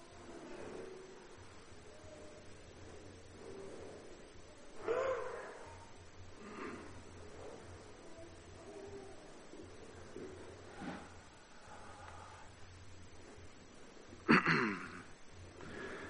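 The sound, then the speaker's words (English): Heavy, labored breathing after climbing stairs, a long run of soft, rasping breaths with two louder gasp-like bursts standing out, one early and one near the end. “Well, I made it upstairs. Now just breathe, right?”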